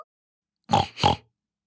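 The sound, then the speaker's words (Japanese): A voice imitating a pig's oinking: two short, nasal grunts in quick succession, loud and alone against silence. “ブタさんだぞー。ブヒブヒしちゃうぞ”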